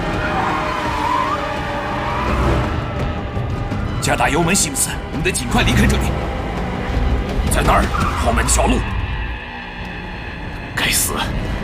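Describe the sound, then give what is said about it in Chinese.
A car accelerates hard with tires skidding as a vehicle escorting a president races away from a hospital: a dense, continuous roar of engine and screeching rubber, with several sharper squeals rising out of the noise. “探路者准备离开医院，加大油门”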